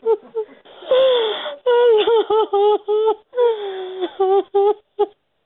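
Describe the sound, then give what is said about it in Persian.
A grieving mother wails and sobs in mourning on Eid for her two daughters, killed in a car bomb blast in western Kabul. Many pitched, trembling cries come in bursts separated by short breaks. “این صدای گریه مادر نگینه و زحل، دو دختری که هفته گذشته در انفجار موتر بمبگذاری شده در غرب شهر کابل جان باختند.”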